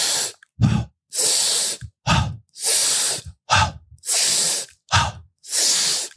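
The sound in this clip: Fast rhythmic breathing in a breathwork exercise, with long airy inhales alternating with short, sharp exhales. The pattern repeats about five times, loud and close, with no talking.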